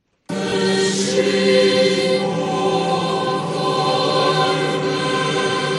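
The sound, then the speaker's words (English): The Vatican Choir sings during Easter Mass in St. Peter's Square, Rome, full voices holding sustained, blended harmonies at a steady, fairly loud level throughout. “That's the sound of the Vatican Choir during Easter services Sunday in Rome.”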